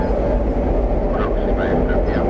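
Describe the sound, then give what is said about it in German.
A Madrid metro train gives a steady, loud low rumble throughout, with a few faint higher squealing tones partway through. “David fährt jeden Tag mit der U-Bahn.”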